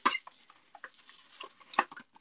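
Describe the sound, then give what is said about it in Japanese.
Crinkling and rustling of plastic cling film as food is wrapped, with scattered quiet ticks and crackles and two sharper snaps near the start and near the end, no voices. “ラップでね、くるんでおきます。”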